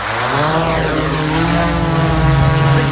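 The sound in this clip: Camera drone taking off, its propellers spinning up into a loud, steady buzzing whine that climbs slightly in pitch and holds strong throughout.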